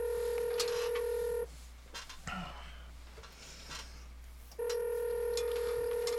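Telephone tones as a call is placed: a steady, bright electronic tone holds for over a second, drops away to faint line noise with small clicks, then returns just as steady.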